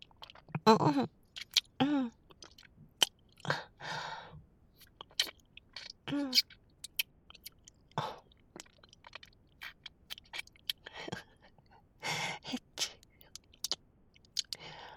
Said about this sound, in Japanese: なんで一緒に舐めようとすんの？私のアイス食べちゃうの。